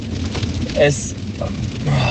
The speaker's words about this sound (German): Ja, es regnet hier wie Scheiße.